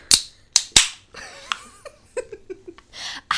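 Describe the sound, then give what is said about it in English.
A White Claw can being cracked open: a few sharp, bright pops in quick succession at the start, then softer scattered clicks and a short hissing burst near the end. “That was a really good crack. yeah, that was a good. The crack. white claw really came through for our intro song.”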